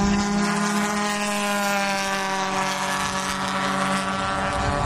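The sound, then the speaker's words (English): Racing boats, the three race leaders, roar with a steady, loud engine drone and a layered harmonic whine, mixed with wind noise throughout and no voices. “Those are the three race leaders, and they're coming up fast on the Cougar”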